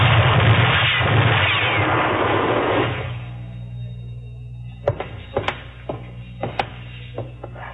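Gunfire aimed at someone up above in a western standoff: a loud, roaring burst that dies away after about three seconds, then several sharp, short cracks at irregular intervals.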